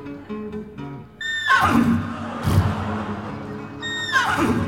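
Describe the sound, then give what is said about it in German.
A horse neighs on the banks of the Grand Canyon, giving two shrill whinnies that each fall in pitch, the second coming a few seconds after the first, over steady background noise. “als sein treues Pferd Adalbert Karl Friedrich zu wiehern anfing”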